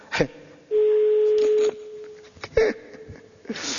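Telephone sounds while a number is dialed: a steady low dial tone lasting about a second, followed by a few sharp clicks and brief tone fragments.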